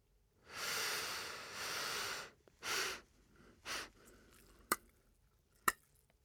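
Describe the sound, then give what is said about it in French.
Slow, deep breathing from a guided breathing exercise: one long airy breath held for nearly two seconds, then two shorter breaths, and finally two sharp faint clicks in the quiet. “J'inspire sur quatre. Je fais une pause de deux secondes et j'expire sur quatre.”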